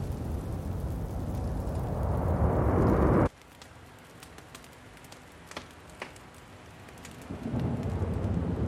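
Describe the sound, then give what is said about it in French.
Heavy rain from a thunderstorm outside hisses loudly, then cuts off abruptly about a third of the way in, leaving a quieter stretch with scattered sharp cracks before the downpour swells back up near the end. “Un battement d'ailes provoque la fureur de l'orage au dehors.”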